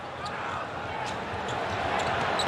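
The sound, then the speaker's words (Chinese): A basketball is dribbled up the court during a game, with repeated dull bounces under continuous crowd noise. “杨汉森自己持球到前场没问题。”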